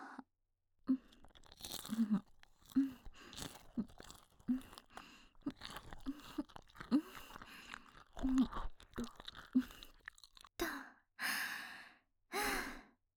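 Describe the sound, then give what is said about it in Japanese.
Close, wet chewing of a final bite goes on in many soft crunching and smacking bursts, followed by a few long breathy sighs. “あなたの頭のてっぺんの骨もいただけてるわよ。はい、これが最後の一口。”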